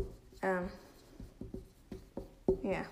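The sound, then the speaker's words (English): Marker writing on a whiteboard: a few short, scratchy strokes with squeaky, tonal bursts at the start and end, separated by brief quiet gaps. “Writing it down.”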